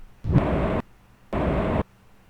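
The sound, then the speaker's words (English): In a space video game, a spaceship's afterburner fires in two loud, roaring bursts of about half a second each, with a brief gap between them. “Just afterburning it a little bit here to get us closer.”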